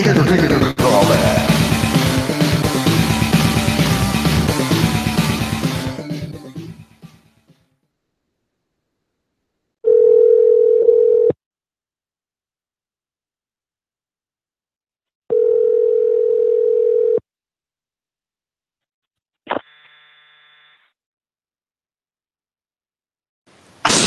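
Telephone line tone after a caller hangs up: a loud, dense noisy passage fades out, then two steady mid-pitched tone bursts of about a second and a half each sound alone, separated by silence, followed by a brief blip.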